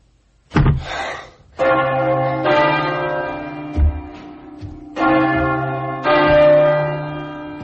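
Church bells ring out in several deep, resonant strikes, each with a long humming sustain that overlaps the next, loud and alone with no voices.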